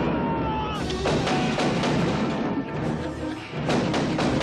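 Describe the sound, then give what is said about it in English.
Gunshots in a played action video game scene, many rapid, sharp shots and heavy thuds firing in dense bursts throughout. “And here he goes, shooting multiple bad guys, rolling on the ground, shooting, and let's use the guy I just shot for cover for a second.”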